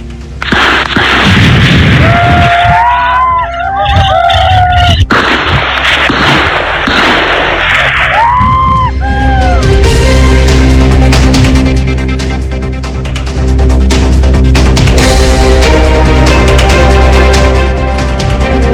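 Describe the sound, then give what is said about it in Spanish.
Loud ambient noise as a police raid with armored vehicles begins in Chile, semi-automatic weapons and shotguns in use: sharp booms and bursts over dense, continuous noise, with rising and falling wailing tones in the first half. “Escuchemos parte de ese ruido ambiente cuando se iniciaba el operativo.”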